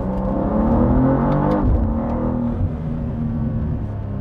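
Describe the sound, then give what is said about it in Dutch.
Twin-turbo 3-litre inline-six direct-injection petrol engine of a BMW M3/M4 type, rated 460 hp and 550 Nm, roars loudly and continuously as the car drives through a tunnel. “de kracht wordt geleverd door eh, de bekende 3 liter 6 in lijn, 2 turbo's, directe benzine-injectie. Nou, alle mooie technologie. Nou, tunneltje.”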